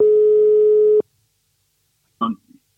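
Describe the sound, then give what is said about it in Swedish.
A telephone line tone heard while placing a call: a steady, loud electronic tone holds for about a second and cuts off sharply, followed by silence and then a short burst of voice. “nu måste vi ringa upp Hasse Backe och se om han är redo här.”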